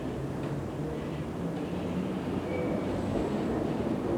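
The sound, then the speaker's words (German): A London Underground train running, a steady low rumble that holds level throughout, with faint thin squeals of the wheels rising briefly past the middle. “Das ist die älteste U-Bahn der Welt. Heute ist sie eine der längsten der Welt.”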